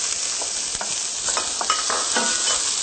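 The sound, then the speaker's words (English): Olives sizzle and fry in a pan as they are stirred, a steady, bright hiss throughout with light scraping ticks from the stirring, no voices. “We have our olives here. Get this all stirred up.”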